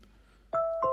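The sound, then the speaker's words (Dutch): A two-note doorbell chime from an Apple HomePod: two clear electronic tones struck one after the other, each ringing on with a sustained bright ring after a quiet start. “Ja, en dat is heel specifiek het deurbelgeluid van de Apple HomePod.”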